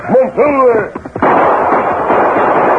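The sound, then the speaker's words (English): A few sharp gunshots ring out in a Western scene, fired from horseback over the heads of panicked chiefs, then give way to a steady, loud roar of noise. “The Lone Ranger rode from the underbrush, firing over the heads of Crazy Bear and the four chiefs, who had become as panic-stricken as their retreating warriors.”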